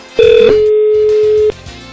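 A telephone tone sounds after a button is pressed on a phone-in line: a loud, steady, mid-pitched tone holding for over a second before cutting off abruptly, with faint sound beneath it.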